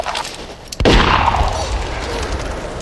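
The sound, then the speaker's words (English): A single gunshot, a sheriff firing at a woman outdoors in the snow: one sharp, loud crack followed by a long, fading ringing tail. “He shot her without even turning to look at her. The sheriff shot Kimber in the chest where she stood.”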